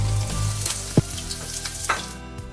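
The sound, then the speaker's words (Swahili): Plantains and chips fry with a dense, steady sizzle and crackle, broken by a few sharper pops. “Ndizi mzuzu wa kukaanga, hata chipsi na kachumbali tumesikia.”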